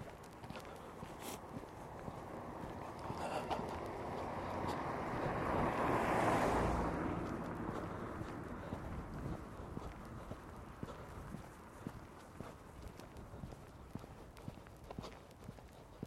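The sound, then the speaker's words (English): Footsteps of someone walking outdoors on the way to the post office, with many steady, regular steps under continuous rushing wind noise that swells slightly midway and then settles. “Audio log walk to the post office, maybe.”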